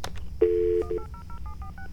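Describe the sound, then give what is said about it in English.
Telephone keypad tones dialing a spelled-out toll-free number: one long beep followed by a quick run of short electronic beeps at varying pitches. “But dialing the number is P-I-M-P-I-N-G.”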